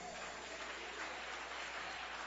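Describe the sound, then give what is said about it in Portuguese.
Applause from a church audience: steady, continuous clapping of many hands, fairly faint and even in level, with no talking over it. “Maravilha, mais palma alegre para o Rei Jesus.”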